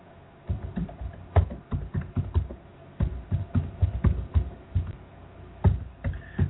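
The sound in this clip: Rapid typing while writing something down: many quick, irregular key clicks, fairly loud and continuous, with no voices.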